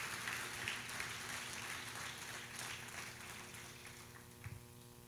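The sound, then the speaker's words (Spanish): Faint applause from an audience during a church service, a steady, dense wash of clapping that holds through the whole stretch without voices. “Vamos a darle un aplauso al Señor. Put your hands together for the Lord.”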